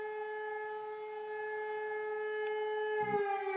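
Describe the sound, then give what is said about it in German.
Civil defense alarm siren wailing in a loud, sustained, steady tone with strong harmonics, holding the same pitch throughout with no voices. “Ich glaube, anhand der Anzahl und Länge der Geräusche kann man immer hören, was für ein Alarm es ist.”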